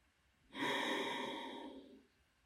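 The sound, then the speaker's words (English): Ocean breath: a single long breath drawn through a slightly tightened throat with the mouth closed. It makes a steady, throaty, hissing rush that lasts about a second and a half, then fades softly. “So you want to do what's called ocean breath. So if you put your hand up in front of your mouth and blow as if you're misting up a window, you can feel your breath in your hand.”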